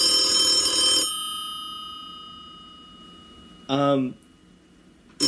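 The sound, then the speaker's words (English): A telephone rings with an incoming call: one bright, bell-like ring lasts about a second, then slowly fades into quiet. A short burst of speech follows. “we have a caller. It says Maryland, D.C. area.”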